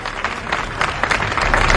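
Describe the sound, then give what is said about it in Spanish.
Applause from a gathering in Saint-Denis comes as a loud, dense patter of clapping hands, steady with brief swells and growing slightly stronger toward the end. “Aplausos en Saint-Denis”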